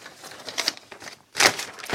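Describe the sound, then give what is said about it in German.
A paper page is turned with crisp rustling and crinkling. Softer, scattered rustles lead into one louder swishing burst near the end. “Wir blättern um.”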